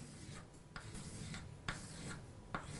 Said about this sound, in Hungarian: Ha ezt a 6 darab atomot most fölülnézetben lerajzolom,